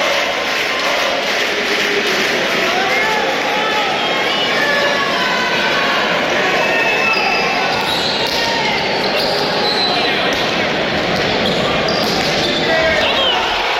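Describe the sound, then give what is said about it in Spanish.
A hand pelota manomanista final at the Adarraga frontón with a riojano player, heard as a dense, loud, steady crowd roar with ball impacts mixed in throughout. “Y ahora, a las 3:52, un sonido, el del frontón Adarraga, con la vuelta de un riojano a la final del manomanista después de 72 años.”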